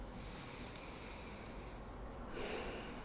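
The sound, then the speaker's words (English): A deep breath taken during a tapping exercise: one quiet, airy inhale near the end, following a low, steady background hiss. “Under the nose, nice deep breath. Chin, nice deep breath.”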